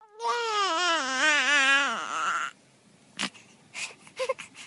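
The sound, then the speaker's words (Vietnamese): Crying comes from rented rooms with tin roofs: a loud, wavering, high-pitched wail lasts about two seconds and breaks off, followed by quieter scattered short sounds. “Hàng loạt tiếng trẻ em khóc ré ré từ phía những căn phòng trọ lập mái tôn vọng tới”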